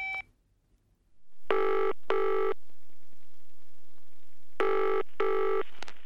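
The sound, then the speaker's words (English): A telephone ringing after a number is dialled: two loud double-burst rings with a pause between them, over a steady low hiss. “Let's phone Kit. What's his number? It's 7855021.”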